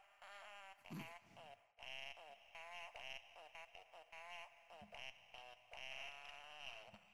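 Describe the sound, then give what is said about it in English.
Faint, wobbly, buzzing fart noises come from a musical farting Santa Christmas ornament, repeating in short bursts like a silly tune. “This is a musical ornament that's Eric's favorite because it's a farting Santa.”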